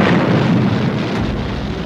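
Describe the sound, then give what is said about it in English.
A rocket engine ignites at blastoff with a loud, dense roar and deep rumble. It holds steady throughout without a break. “Countdown for blastoff. X-minus 5, 4, 3, 2, X-minus 1, fire.”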